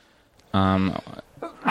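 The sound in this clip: A sneeze rings out once, a loud, short burst on its own with a strained, voiced quality.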